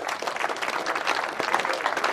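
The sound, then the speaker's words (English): A church audience claps after a prayer of commitment, giving a big hand of applause: loud, dense clapping from many people that holds steady throughout, with slight surges in intensity. “Give God a big hand clap there.”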